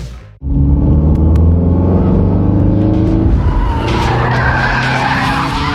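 A new car skids with a loud, sustained tire screech over a deep engine rumble. The sound starts abruptly and holds steady for about five seconds, with no voices.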